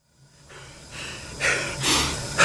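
Heavy panting after hard exertion: a quick run of several breathy, hissing gasps that grow louder toward the end, with no talk.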